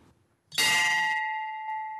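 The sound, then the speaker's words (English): A single bell strike at a Jain temple, rung by a worshipper before prayer. One bright, loud clang opens into a sustained metallic hum that slowly fades. “Worshippers take their shoes off and leave them outside before entering. Then they ring a bell.”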